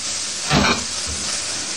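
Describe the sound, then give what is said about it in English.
Chinese or Vietnamese fried rice is tossed back into a hot pan to warm, giving a brief louder burst of hissing that settles into a steady sizzle, with no talking. “Okay, now, just toss the rice back in to warm it up together and it's done.”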